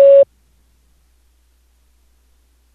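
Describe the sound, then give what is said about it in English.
A single short beep from an automated phone system signalling the start of recording, a steady mid-pitched tone lasting about a quarter second, followed by silence. “After the tone, record just your first name.”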